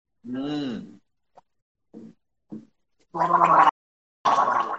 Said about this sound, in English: that's what grandma sounds like on a Saturday night. She's gargling the denture water stuff.